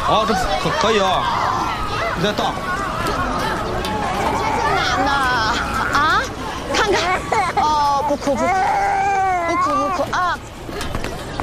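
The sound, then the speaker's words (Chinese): A baby cries amid a busy, chattering group, wavering high wails rising over overlapping voices and bustle, most prominent in the second half. “哦，不哭不哭，不哭不哭啊！”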